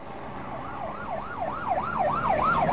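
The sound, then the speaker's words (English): A state patrol police car siren wails in a fast, regular up-and-down warble, repeating several cycles and growing steadily louder over a low engine rumble. “A state patrol car is coming up fast behind them.”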